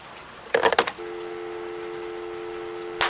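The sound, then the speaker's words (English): Dialing a telephone number: a brief cluster of quick dialing sounds, then a long, steady tone that ends with a sharp click. “What Dick didn't know is I was dialing my Aunt Teresa's number.”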